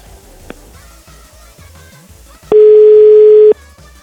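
A steady telephone tone sounds while a call is placed to someone: one loud, even tone holds for about a second, standing out sharply after a stretch of quiet low background sound.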